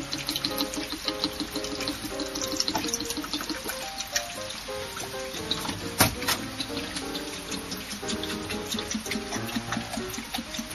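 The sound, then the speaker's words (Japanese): Liquid hypo clearing agent pours from a narrow-necked 2-litre PET juice bottle into a developing tank, a continuous trickling stream broken by hollow glugs as air pushes back through the narrow neck, with one sharper knock midway. “今水洗促進剤を注いでいます。”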